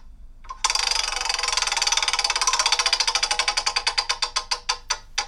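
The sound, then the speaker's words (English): A spun prize wheel ticks as it turns slowly. Many quick clicks in steady succession gradually spread apart and soften toward the end as the wheel loses speed. “Let's spin the science wheel. And pick a subject. Are you ready to spin? Here we go. It's a bit rubbish, this wheel. A bit slow.”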